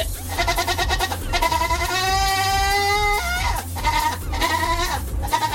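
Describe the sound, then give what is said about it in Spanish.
A goat bleats in a series of loud cries. A long, sustained, quavering bleat in the middle is flanked by shorter calls, all over low background noise. “Nomás dije saludos para todos ellos y empezó el chivo, mira.”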